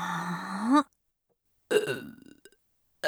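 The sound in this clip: Loud, deep burps: one long gurgling belch, then a second rougher one after a short silence, and a third just starting at the very end.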